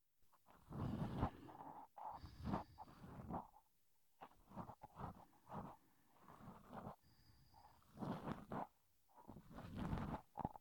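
Ear cleaning sounds, with scratching and rubbing inside the ear, come as irregular rustling strokes in uneven bursts separated by brief pauses. No voice is present.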